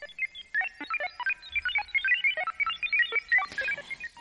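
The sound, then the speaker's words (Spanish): Invented satellite sound effect: many rapid electronic beeps and chirps in a quick, warbling, rhythmic sequence, ending in a brief noisy burst. “Porque vamos a hablar de satélites y se nos ha ocurrido poner un efecto de sonido absolutamente inventado.”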